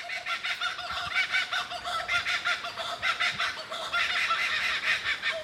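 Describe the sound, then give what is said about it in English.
An Australian kookaburra gives its laughing call: a continuous run of rapid, raspy cackling pulses that keeps up a steady chattering rhythm from start to finish. “here's the sound of one of my favourite Aussie birds, a kookaburra.”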